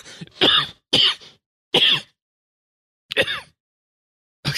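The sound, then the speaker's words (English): Several dry human coughs come in separate sharp bursts with short silent pauses between them, fairly loud and with no talk in between. “Just a bit of a cough.”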